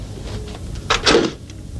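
A door is shut at home, a short wooden clatter and thud of under half a second, alone, with no voices.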